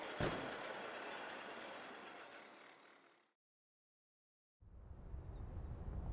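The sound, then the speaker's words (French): Vehicles arriving in a fantasy game scene give a loud, broad engine roar that fades out after about three seconds. A stretch of silence follows before the rumble returns, heavy and steady, with no voices. “J'entends des véhicules qui arrivent. Bon, c'est sûrement eux.”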